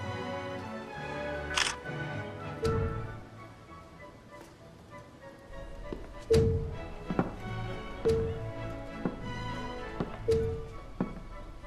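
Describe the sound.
A camera takes photos during a user identity check, giving several sharp shutter clicks at irregular intervals over a faint background hum.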